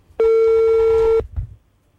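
Steady telephone tone as a call is dialed from a studio: one loud, even beep lasting about a second, then a faint short click.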